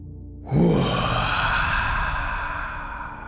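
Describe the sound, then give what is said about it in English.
A forceful exhale, a dragon breath in a breathing exercise, bursts in suddenly as a loud breathy rush and holds for nearly three seconds, slowly fading. “Let out one last dragon breath.”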